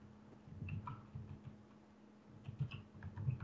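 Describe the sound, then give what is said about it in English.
Keys clatter as someone types on a computer keyboard: faint, irregular light clicks over a low steady hum. “And I'll type some things in.”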